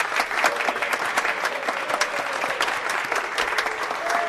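A studio audience applauds to welcome the first pair of contestants on a game show. The clapping is loud and dense, holds steady throughout, and individual sharp claps stand out in the mass.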